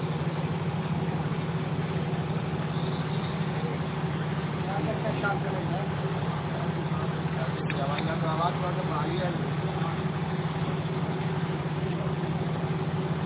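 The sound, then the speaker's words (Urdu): A generator running in the background gives a steady low-pitched drone that holds constant throughout, with people talking briefly over it. “اصل میں پیچھے generator کا بھی شور ہے”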